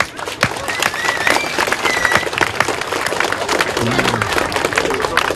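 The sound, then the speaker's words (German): Sustained crowd applause at a town's 275th anniversary festival: dense, steady clapping at an even level throughout, with voices mixed in. “Damit nochmal einen riesengroßen Applaus an euch alle.”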